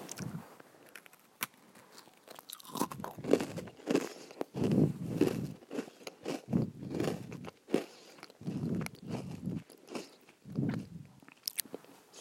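Crunchy bites and chewing on an Oreo cookie with its cream filling. Many fairly quiet crunches come in irregular bursts, with no talk.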